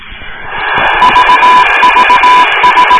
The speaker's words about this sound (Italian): Oh, questa è l'unica cosa che so riconoscere del Morse, che è il CQCQCQ.